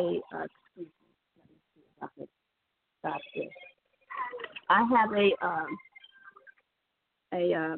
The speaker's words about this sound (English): That's my husband's phone.